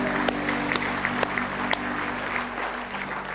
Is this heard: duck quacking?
no